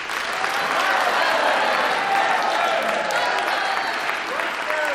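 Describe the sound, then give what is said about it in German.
Audience applause at an evening gathering welcoming returning expedition members: loud, dense, sustained clapping that holds steady for the whole stretch. “bitte Sie deshalb um einen herzlichen Applaus für Lord John Roxton”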